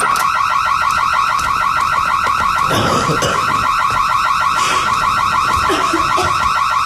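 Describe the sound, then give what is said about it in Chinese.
An alarm going off blares without a break, a rapid buzzy electronic pulse that holds steady and loud for the whole stretch, with a few short bursts of noise mixed in near the middle. “什么声音啊？这是 报警器。”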